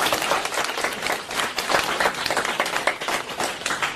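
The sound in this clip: An audience at a talk breaks into continuous, lively applause, with many hands clapping in a thick, crackling texture. The clapping stays loud and even throughout.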